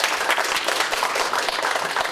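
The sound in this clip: An audience applauds to welcome a speaker at a university talk. Dense, steady clapping runs loudly and evenly throughout.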